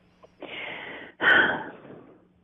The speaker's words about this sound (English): I know, I'm taking a deep breath.